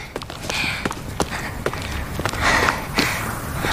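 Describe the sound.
Footsteps walking: an uneven series of soft, thudding steps of varying loudness, some closer together than others, over a rustling background.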